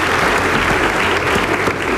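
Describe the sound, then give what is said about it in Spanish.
Applause: a brief, dense burst of many hands clapping, loud and continuous with no pauses. “lo que les quiero contar se merece muchos aplausos porque no solamente... ¡Bravo! ¡Bravo!”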